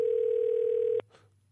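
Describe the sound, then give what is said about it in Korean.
Telephone dial tone while a call is being placed: one steady, loud, even hum lasting about a second, cut off abruptly and followed by a faint, brief click. “전화 좀 걸 수 있을까요? 예. 아, 그래요. 준비를 하신 것처럼 바로 또 걸어주시네요.”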